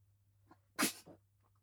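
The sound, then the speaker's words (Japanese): A single sharp sneeze from a person on a chilly spring night, short and fairly loud, with a faint breath just before it and quiet sounds after. “さすがに春の夜は寒いねくしゃみ出ちゃった。”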